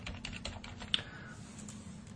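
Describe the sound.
Someone types code on a computer keyboard, giving a quick run of faint, light key clicks followed by sparser soft taps over a low background hum.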